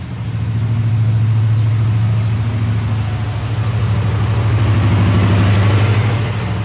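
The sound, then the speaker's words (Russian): A new bus pulls up at a bus stop, its engine producing a loud, steady low rumble and drone that holds for several seconds with no voices. “Подъехал новенький синий автобус.”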